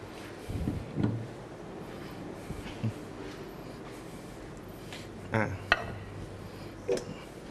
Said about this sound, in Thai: ขออนุญาตหยิบจานที่จะใช้เสิร์ฟก่อนนะครับ